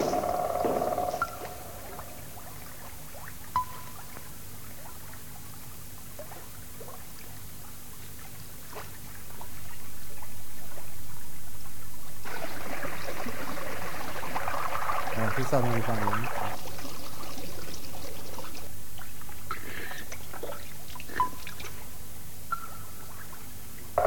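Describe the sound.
Flowing water from a film soundtrack, a soft steady wash that swells after a quieter opening and holds to the end, with scattered faint clicks and trickles.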